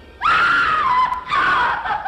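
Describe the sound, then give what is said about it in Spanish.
A horrible scream from someone inside a room: a loud, high, sustained cry that sinks slightly in pitch, breaks off briefly, then returns as a second shorter scream. “¡Cielos! Alguien está muriendo ahí dentro. Cálmate. ¿No has oído un grito horrible?”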